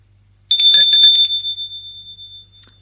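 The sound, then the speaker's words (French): A doorbell rings at a presbytery: a bright, rapid metallic trill of strikes lasting about a second, then one high tone lingers and slowly fades out. “On a sonné. Il ouvre.”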